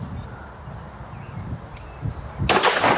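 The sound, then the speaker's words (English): Gunshots from people drinking and shooting at things: a short sharp crack, then a louder, broader blast with a rough, lingering tail. “They're drinking booze and shooting things.”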